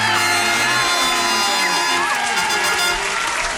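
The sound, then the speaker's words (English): Studio audience cheering, whooping and applauding as a guest is welcomed, a loud, sustained wall of shouts and clapping with no pause. “The full fanfare. Welcome. Thank you. You shouldn't have. Oh, blessings to you. The studio audience couldn't hold themselves back.”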